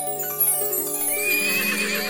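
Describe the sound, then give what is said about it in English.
A fine white horse wearing a golden saddle gives a single long, quavering whinny that rings out clearly over a faint background. “And when she opened the gate, there stood the finest horse she had ever seen. Its mane was pure white, and it was wearing a golden saddle.”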